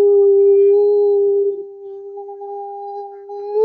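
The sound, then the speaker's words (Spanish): A person imitates a wolf howl, holding one loud, sustained vocal note at a steady pitch for about three and a half seconds. “enviarles un gran aullido. ¡Au!”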